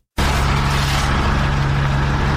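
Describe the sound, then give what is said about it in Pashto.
A municipality vehicle's engine works in Tarinkot, Uruzgan, while it clears roadblock barriers from a city street. A steady, loud engine drone with a low constant hum starts abruptly and runs unbroken to the end. “دا د ترینکوټ شاروالی موټر او کارکون کې دی”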